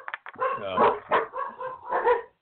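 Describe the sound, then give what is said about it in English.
Poodles barking during a live community talk show: a run of several sharp, yappy barks and higher whimpering yips, moderately loud with short gaps between them. “And the dogs have entered the conversation. I don't know if you guys can hear the dogs barking in the background on the Boze Noze show”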